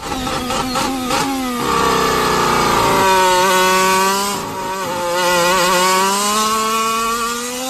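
Racing car engines as they sounded this season: a loud, buzzy high-revving whine rich in harmonics, with quick shifts at the start, then a sustained scream that dips in pitch and climbs again, with no voices.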